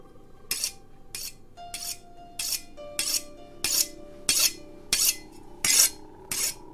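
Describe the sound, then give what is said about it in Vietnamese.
A large pig-sticking knife being sharpened back and forth, ten evenly spaced, bright metallic scraping strokes in a steady rhythm, with a faint ringing tone lingering between them. “Tay của lão lăm lăm con dao chọc tiết lợn mà mài qua mài lại.”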